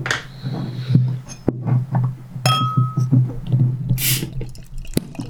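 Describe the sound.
A bottle of Augustiner Helles lager, chilled to about 5 °C, is opened and handled: a few sharp glassy clinks and knocks, a brief hissing burst, and soft rustling over a low, steady hum.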